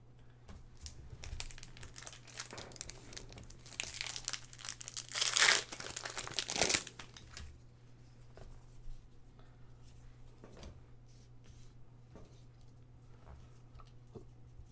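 The foil wrapper of a Magic: The Gathering booster pack crinkles as it is opened. Soft rustling builds into a louder burst of crackling and tearing midway through, then fades back to faint, scattered handling sounds.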